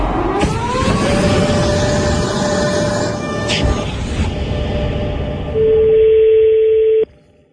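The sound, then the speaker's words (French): Telephone ringing tone of an outgoing call, a steady, loud single tone held for about a second and a half, heard after a long stretch of dense rumbling noise. “on a appelé, François Ruffin a appelé la grande chancellerie de la Légion d'honneur.”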